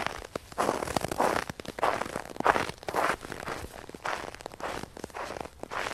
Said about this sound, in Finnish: Että ollaankin pakkashangella liikkeellä. Itse asiassa, miksi lumi narskuu?